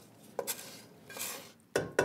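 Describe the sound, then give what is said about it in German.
Utensils clink and scrape against a bowl as fried bacon is added to a mixture of chives, finely chopped onion and a little flour. A few sharp, bright knocks are spread over soft rustling. “Und den angebratenen Speck. Das könntest du jetzt reinlegen, gell? Geben wir das dazu.”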